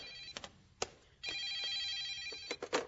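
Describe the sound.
A telephone rings with a bright, buzzing electronic tone in one sustained burst, surrounded by a few sharp clicks and taps.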